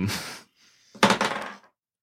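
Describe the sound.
Dice clatter onto a wooden-sounding table during a tabletop role-playing game: a short rattling burst, a brief near-silent pause, then a louder run of quick tumbling clicks and knocks that settles to a stop.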